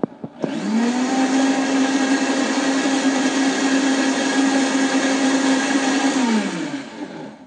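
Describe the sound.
A blender whirs as it purees a smoothie of raw Swiss chard and whey protein powder. After a brief clatter at the start, it runs as a loud, steady, high whine for about six seconds, then winds down.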